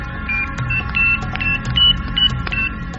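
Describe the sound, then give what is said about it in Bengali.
A number is dialled on a mobile phone keypad, giving a quick run of short high beeps with faint clicks between them, fairly quiet over a low background hum. “Pocket থেকে একটা mobile বের করে নম্বর dial করলেন।”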